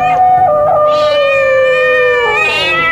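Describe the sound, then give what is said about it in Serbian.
A single long, loud cat meow, drawn out and strongly tonal, sliding gradually lower before lifting again at the end. “I mačka.”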